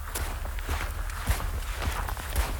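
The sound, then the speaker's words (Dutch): Footsteps walking on an unpaved country road in Ukraine, a few dull, low thuds at an even walking pace over a constant rough background. “We lopen nu met hem mee, achter hem aan over een onverharde landweg.”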